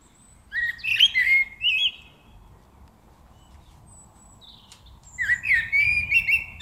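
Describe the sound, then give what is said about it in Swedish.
A European robin sings two short phrases of high, thin, warbling notes, separated by a quiet pause over faint background noise. “Och så är det en röd hake som sjunger också.”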